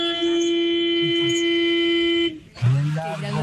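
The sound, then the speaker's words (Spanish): A long, loud horn honk held for about two seconds at one steady, buzzy pitch, then cutting off before a voice starts talking. “Es un pito que suena fuerte, un pito oiga largo.”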